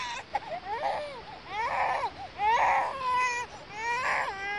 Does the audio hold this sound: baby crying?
yes

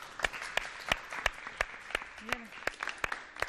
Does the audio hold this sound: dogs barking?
no

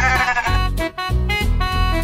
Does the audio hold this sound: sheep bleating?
yes

